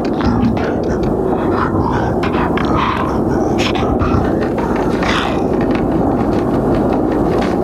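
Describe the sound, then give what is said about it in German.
An amusement ride train trundles into darkness with a loud, steady rumbling roar. Scattered clattering clicks run through it without a pause. “Dann öffnete sich das Tor und die Bahn zuckelte in die Dunkelheit.”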